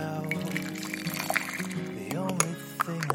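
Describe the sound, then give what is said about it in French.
Coffee flowing from a coffee maker at eight in the morning, a steady liquid pour and trickle with sustained tonal sounds running beneath it. “Il est 8h, votre café coule.”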